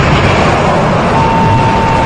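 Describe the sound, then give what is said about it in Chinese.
Rocket engine ignition at a launch after a countdown: a loud, steady, dense roar that fills the whole clip without pause, with a faint steady tone threaded through it. “3、2、1，点火！”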